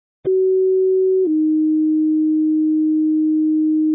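A radio dispatch alert plays two steady pure tones: a short tone of about one second, then a slightly lower tone held loudly to the end, with no voices.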